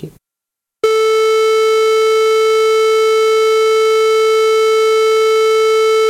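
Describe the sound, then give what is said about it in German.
Sine wave test tone sounding after a brief moment of silence, a loud, steady pure pitch with faint buzzy overtones that holds unchanged for about five seconds. “das war jetzt ein Sinus”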